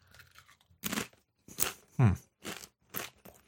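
Crisp crunching as someone eats light, mellow, lightly salted chips that taste like whole wheat. A few sharp, dry crunch bursts come in an uneven rhythm with short quiet gaps between bites.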